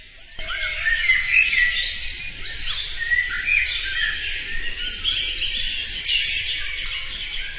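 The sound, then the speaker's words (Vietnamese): Birds singing in a forest, a dense, continuous mix of high chirps and trilling calls that starts abruptly and keeps a steady level throughout. “Bác thấy hình như cháu cũng chẳng thèm nghe tiếng chim hót.”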